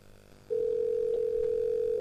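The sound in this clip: A steady telephone line tone sounds on an incoming call suspected to come from a scam call centre. It starts after a short quiet moment, then holds one unchanging pitch, loud and alone, to the end.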